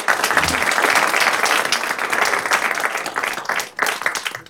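An audience applauds as the general manager of Boise State Public Radio is welcomed on stage at a community library event. Loud, dense clapping holds steady, dips briefly near the end, then picks up again with scattered claps.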